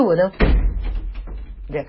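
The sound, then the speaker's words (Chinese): A door being shut by a child: one loud thudding slam with a low rumbling tail, and talking heard just before and after it. “对不起，我儿子关门了”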